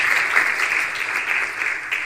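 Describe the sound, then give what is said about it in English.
A church audience gives a round of applause as a guest from Northern Virginia Teen Challenge comes forward, a steady, crackling patter of many hands clapping that holds at an even level throughout. “Would you give him a big round of applause as he comes?”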